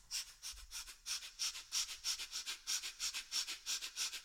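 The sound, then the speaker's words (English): Breath of Fire breathing, with the belly pumping rapidly: many quick, forceful nasal breaths in an even rhythm of about three to four per second. It continues steadily throughout, with no talking. “In Breath of Fire, you're actually constantly pumping your belly.”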